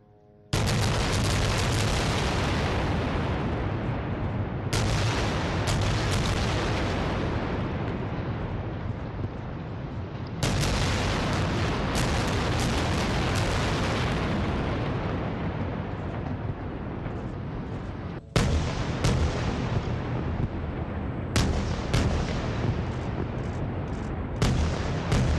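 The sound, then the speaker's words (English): A barrage of rockets fired into Israeli territory during fighting between Israel and Hamas makes a loud, sustained rushing roar. It comes in several long, continuous bursts separated by abrupt breaks, with no voices. “That's the sound of a rocket barrage into Israeli territory.”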